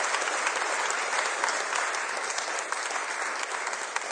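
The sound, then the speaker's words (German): Many hands clapping as a church audience welcomes a guest preacher to a service, a dense, even patter that holds at a moderate level for the whole clip without breaks. “Und ich will uns einladen, dass wir Tyler mit einem ganz großen Applaus willkommen heißen.”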